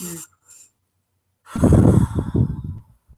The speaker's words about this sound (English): It's almost like a slow motion breathing, like when you blow out a birthday cake.